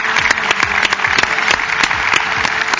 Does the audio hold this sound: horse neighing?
no